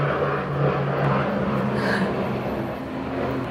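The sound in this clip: An airplane's engines drone beside a runway, a steady, loud, broad roar that holds evenly throughout with only slight swells.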